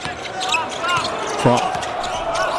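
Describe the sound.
A basketball is dribbled on the court during a game involving China's team, its repeated bounces thudding under a commentator's continuous speech.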